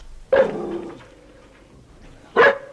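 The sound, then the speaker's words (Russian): A dog barks twice, each bark loud and sharp, with a quiet pause of about two seconds between them and no voices. “Ну и лежи, лежи. Очень хорошая собака. Такая с виду умная, симпатичная.”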